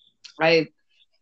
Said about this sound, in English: excuse me, I have a tickle in my throat